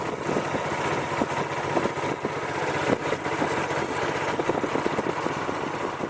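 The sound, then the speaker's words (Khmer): A motorboat engine running steadily during a trip to a flooded village. The engine gives a constant, loud, rumbling drone with a rapid, pulsing chug throughout. There are no voices. “លោកខឿនបានធ្វើដំណើរតាមទូកម៉ាស៊ីនទៅមើលភូមិចាស់របស់លោក”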